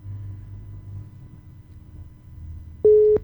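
A telephone busy tone sounds after a dropped call, a single clear, steady beep, loud against a low, quiet rumble that precedes it.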